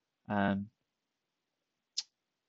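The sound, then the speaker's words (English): A single short, sharp mouse click on an "I'm done" button comes well after a brief spoken sound, then silence returns. “All I'm going to do right now is click I'm done.”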